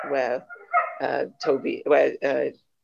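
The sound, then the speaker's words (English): A dog barks and yelps in about six short, high bursts. Some sound whiny, and there are brief gaps between them. “sorry about the dog, guys.”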